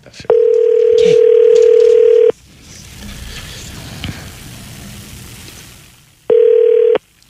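A telephone dial tone sounds while a call is being placed: one steady, loud tone holds for about two seconds, faint background noise follows, and then the same tone returns briefly.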